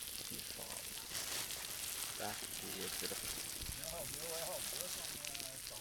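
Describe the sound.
Bacon with oregano and thyme frying in a pan, giving a steady, dense crackling sizzle that carries on without a break.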